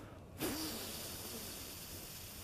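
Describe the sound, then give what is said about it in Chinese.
A long, slow exhalation through pursed lips, done as a breathing exercise, makes a steady, even hiss of air that starts abruptly and holds at a constant level to the end. “那我们现在吹气法就是让你吹久一点，好，那。就是嘴巴嘟的像吹像吹得很细这样子哈，或是用像类似吸管一样那样，”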